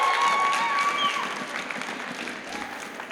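Audience applause at a gathering rings out as dense, steady clapping with some crowd noise, strongest at the start and gradually softening over a few seconds.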